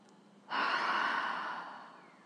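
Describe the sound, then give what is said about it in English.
A single deep breath taken during a guided breathing exercise, heard as a soft, airy rush that swells quickly, holds, then fades over about a second and a half against a faint background hiss. “Okay, deep breath. And out. One more in.”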